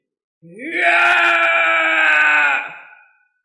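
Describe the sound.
A man screams loudly, his voice rising in pitch at the onset and then holding a harsh, steady, sustained tone for about two seconds before cutting off and fading quickly.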